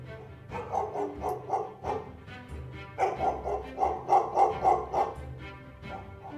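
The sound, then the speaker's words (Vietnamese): Dog barking in a rapid, irregular run of many sharp barks, some bunched into quick bursts, loud and steady with no talk. “Ngay sau đó là tiếng chó sủa lên nhấm nhặng.”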